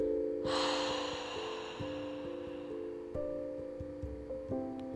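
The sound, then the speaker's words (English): A deep breath drawn in through the nose and let out through the mouth makes a soft, airy hiss that rises sharply and fades slowly. Quiet sustained musical tones with gentle plucked notes play beneath it. “Go ahead and start now by taking a nice deep inhalation in through your nose and a long drawn out exhalation through your mouth.”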